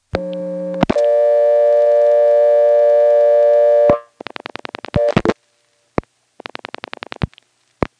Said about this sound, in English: Let me try dialing an 898 number, and I'm going to flash right when it starts to send.